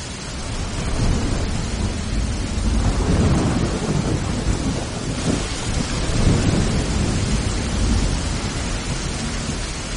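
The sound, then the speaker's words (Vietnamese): Heavy rain and thunder from a night storm with strong wind: a loud, unbroken roar of downpour with a deep low rumble running through it, steady from start to finish and without voices. “Đêm nổi gió lớn, sấm chớp giang rầm, mưa to tầm tã.”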